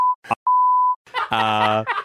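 Censor beeps at a steady mid pitch: a short tone, then a longer one of about half a second, with a brief vocal sound between them. Groaning, drawn-out vocal sounds follow afterward.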